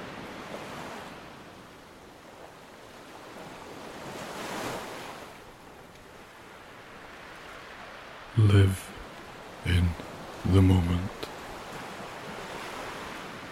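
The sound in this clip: Ocean waves with wind, a continuous rush of surf that swells and ebbs, followed by three short, heavy low bursts near the end.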